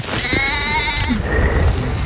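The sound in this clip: An injured lamb with a broken leg bleats: one loud, wavering, strongly harmonic cry, then a softer, shorter bleat.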